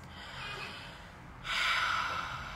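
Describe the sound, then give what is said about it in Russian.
A deep breath drawn in through the mouth during a guided relaxation exercise: a soft airy rush that swells sharply partway through and stays strong to the end, with no talking. “выдох, еще один глубокий вдох через рот. Живот ваш расслаблен, на вдохе живот надувается, на выдохе живот сдувается.”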